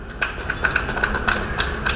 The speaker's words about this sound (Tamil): கை தட்டுப்பா.